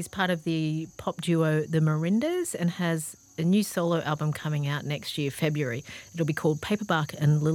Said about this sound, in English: you can hear the crickets there at the end